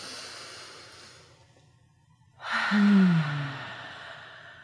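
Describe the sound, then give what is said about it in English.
A single long, audible deep breath during a guided relaxation exercise. It follows a quiet stretch, starts abruptly, swells to a fairly loud peak with a faint voiced tone, then eases off. “Take a deep breath in.”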